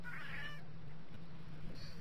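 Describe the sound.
A cat meows in the background, one drawn-out, fairly high meow near the start, then quieter, over a steady low hum.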